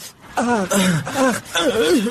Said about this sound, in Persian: چرا گریه را شروع کردی استاد؟